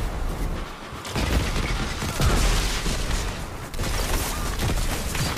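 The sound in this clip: Rapid gunfire from a golden gun in a video game: dense, continuous bursts of many shots that stay loud throughout, with a few heavier booming hits mixed in.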